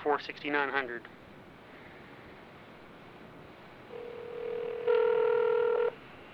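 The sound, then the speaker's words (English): Telephone tones as a call is placed to the Lakeland police department: a brief voice at the start, then a steady low dial tone, joined for about a second by a louder, brighter tone before cutting off. “Here goes. I'm calling the Lakeland Police Department,”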